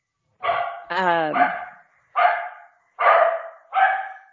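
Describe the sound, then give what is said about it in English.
Dogs barking at bears on a porch: several sharp, loud barks in quick succession, one stretched into a whining yelp, with brief silences between bursts. “That's just the dogs barking at bears on the porch.”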